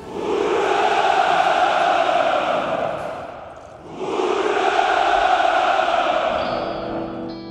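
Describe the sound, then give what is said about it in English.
A large crowd cheers and rejoices in a loud, sustained roar that rises in two long swells, with a brief dip between them. “All of this, of course, is being done in the spirit of helping a poverty-stricken population. And the population is rejoicing.”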